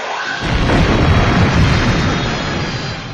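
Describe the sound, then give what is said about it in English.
A nuclear device detonates about 100 meters from the starship Enterprise in Star Trek, producing a loud, dense roar. The rumbling blast sustains without a break for about three seconds. “And they fire just in the nick of time. 100 meters away, a nuclear device was detonated from the Enterprise.”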